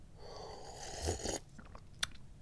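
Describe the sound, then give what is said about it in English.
Soft slurping sip of hot tea, a breathy, noisy draw lasting about a second, followed by quiet, and one small click near the end. The whole sound is faint. “I'm drinking tea. Yummy. Oh, so good.”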